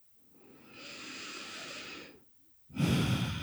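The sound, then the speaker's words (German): Deep breathing during a guided relaxation exercise: a long, soft, airy breath that swells and fades, a brief pause, then a louder, rougher breath that runs to the end. “Und atme nochmal tief ein und aus.”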